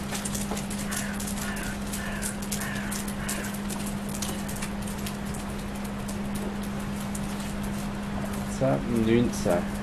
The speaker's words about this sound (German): Und plötzlich kommt uns eine ganze Schar Pinguine entgegen. Jetzt geht's los, jetzt kommen sie.